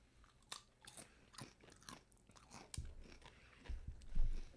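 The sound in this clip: Crunching bites and chewing of taco-flavor Doritos chips, a few crisp crunches with softer mastication between them, the loudest crunching near the end, with no talk.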